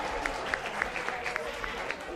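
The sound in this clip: An audience gives faint, scattered applause for a correct quiz answer. Light clapping is heard under talk.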